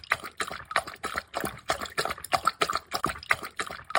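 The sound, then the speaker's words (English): A dog laps water after play: many quick, wet laps in a steady rhythm continue throughout, moderately quiet, with no talk. “Andrew in Wellington says he likes the noise his dog makes drinking water after he's had a play”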